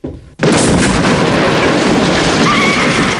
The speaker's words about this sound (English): Kersey fires a rocket.